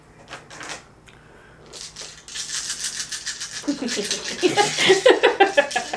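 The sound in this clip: Dice rattle and tumble across a table during a tabletop game, a handful of about twelve dice thrown at once, giving many quick clattering clicks that grow denser and louder toward the end.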